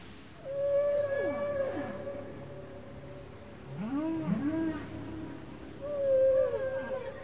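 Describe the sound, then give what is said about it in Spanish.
Whales vocalize in a marine national park used as a breeding area, producing long tonal moans and whistles with rising and falling sweeps. The calls arrive in several separate bursts over a steady low background. “El Parque Nacional Marino Ballena es zona de reproducción de ballenas que vienen del norte y del sur del continente a tener sus crías o a aparearse.”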